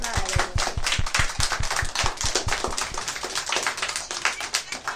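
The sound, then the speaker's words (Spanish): Applause follows praise for a group of children, heard as quick, evenly spaced claps with a steady rhythm throughout, fairly dense and bright. “Para mí todos los niños es ángeles buenísimos y guapísimos. Un aplauso.”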